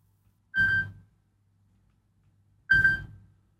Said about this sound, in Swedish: Det ringar, det ringar. Hör, vem kan det vara?